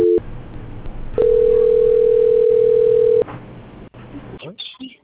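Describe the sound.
A steady, single-pitch telephone tone plays during a call transfer. It holds at an even level for about two seconds, with quieter line noise before and after.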